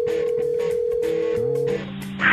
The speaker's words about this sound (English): Let's check Adam's voicemail, brought to you by eVoice.